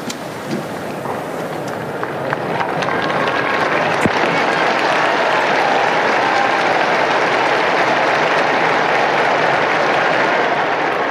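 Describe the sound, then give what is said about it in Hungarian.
A crowd applauds to thank Pope Francis for his blessing. The clapping swells after about two seconds into a loud, dense, sustained roar. “A mai napon is tapssal köszönik meg Ferenc pápa áldását és az ő tanítását”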